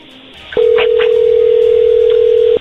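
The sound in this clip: A phone line tone as a call is being dialed: one steady, mid-pitched tone lasting about two seconds that starts and stops abruptly, with a couple of faint clicks near its start.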